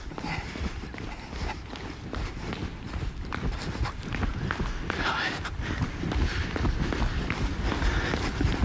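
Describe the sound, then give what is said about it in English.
Feet pound quickly and repeatedly on the floor during a high-knees running-in-place exercise, a fast, even patter of many steps that keeps going throughout and grows slightly louder toward the end. “Ready? Jogging plank. All right, yeah. Here we go. There's high knees.”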